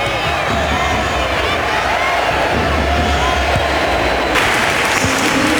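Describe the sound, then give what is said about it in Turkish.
A stadium crowd applauds and cheers at a Spain–Croatia football match, rising in a standing ovation as a substitute enters. The roar is dense and sustained, with clapping throughout and a voice talking over it. “İspanya tribünleri ve teknik direktörü Luis de la Fuente ayakta alkışladı.”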